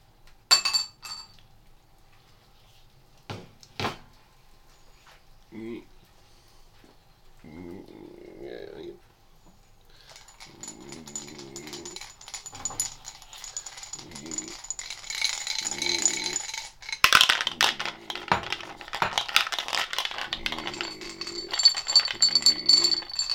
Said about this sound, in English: Foil tray. Almond. Ceramic bowl.